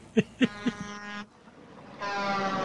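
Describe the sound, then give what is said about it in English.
A DJ studio drop effect of being run over by a bus opens with three short, punchy hits and a sustained blaring horn tone. After a brief gap, a second loud, brassy horn blast follows. “Ooh, run over by a bus. Damn. Son of a gun. Yeah, that? these are all the, like, studio drops for, you know, DJs.”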